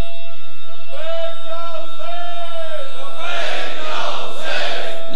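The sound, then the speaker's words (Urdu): A religious gathering chants the slogan Labbaik ya Hussain: a sustained, tonal vocal call comes first, then breaks into a loud, roaring shout from many voices together. “ایک نعرہ اور چاہیے، جب تک لبیک یا حسین نہیں لگتا پتہ نہیں چلتا”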